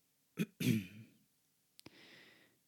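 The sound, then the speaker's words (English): A man clears his throat before reading a poem aloud: a short rasp, then a longer rough one, both faint, and quiet after that. “And he pulls out Sonnet 2 from his back pocket, clears his throat,”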